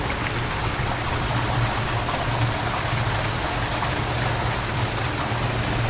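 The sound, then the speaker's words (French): Spring water pours steadily into an underground tunnel gallery of a drinking-water supply, making an even, unbroken rushing hiss with a low undertone and no pauses or changes throughout. “Donc voilà le, l'eau de la source de la Bouillarde, qui se jette dans, une des galeries de la source d'Armentière.”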